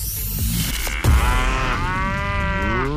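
Cow mooing, used as a radio contest signal sound: a loud, low, drawn-out moo with a rich harmonic tone that carries on for a couple of seconds.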